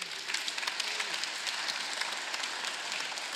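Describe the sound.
Audience applause welcoming guests at a morning gathering about dads and granddads: dense, steady clapping that stays even and fairly faint throughout.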